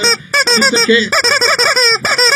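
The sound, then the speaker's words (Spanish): A chicken squawks loudly in a rapid run of harsh, nasal, honking calls, one after another with brief gaps. The piercing, strongly pitched cries dominate throughout. “El pollo que hable en estos momentos, el pollo, y que diga cómo ha visto el partido. Claramente, está muy triste.”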